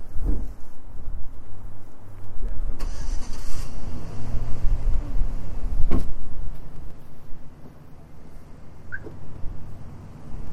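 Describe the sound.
A big truck's engine gives off a low, continuous rumble that holds loud throughout. A few mechanical clunks and brief whines rise above it, and no one speaks.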